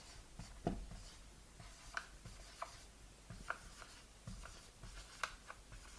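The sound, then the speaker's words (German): A note is written by hand: faint, irregular scratching strokes in short bursts, some slightly sharper than others, with no voices. “Schreibe ich mal hin.”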